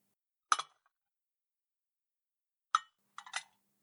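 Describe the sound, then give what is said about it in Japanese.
Two teacups being set down give light ceramic clinks: one sharp double clink, a second clink after a pause, then a quick cluster of small clinks. All are faint and isolated. “先輩のティーカップと、私のティーカップを置いて。”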